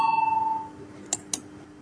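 An electronic bell rings in a parliament to call members to a vote: a pulsing, pitched ring that fades away within a second, followed by two sharp clicks.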